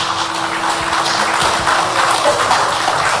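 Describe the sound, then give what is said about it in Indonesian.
Applause from an audience welcoming the Mayor of Batam, who also heads the Batam authority, at a formal event: a dense, steady wash of many hands clapping at an even loudness throughout, with no voices. “Baik, kami sampaikan selamat datang untuk Wali Kota Batam sekaligus Kepala Badan Pengusahaan Batam, Bapak Haji Amsak Rahmat. Boleh tepuk tangannya.”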